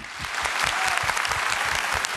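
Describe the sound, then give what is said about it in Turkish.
An audience gives a big round of applause for the performers at the close of a show. Dense, steady clapping holds at an even level without a break. “Şimdi üstadlara şöyle bir kocaman alkış.”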